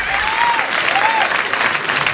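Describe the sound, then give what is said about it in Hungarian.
Applause sound effect fired off too early on a morning radio show: a dense, steady burst of many hands clapping at an even loudness from start to finish. “Elsült a kezem nap.”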